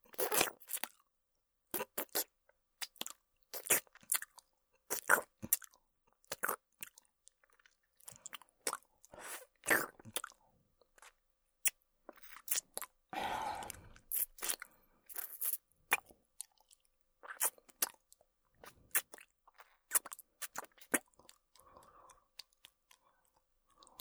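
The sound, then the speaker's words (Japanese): Quiet, wet mouth sounds of licking up and down: many short smacks and clicks in an irregular rhythm, with brief pauses between clusters. “上下に舐める。”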